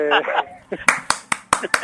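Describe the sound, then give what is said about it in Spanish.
Five slow, sharp hand claps in an even rhythm follow a brief spoken voice. “Aplauso.”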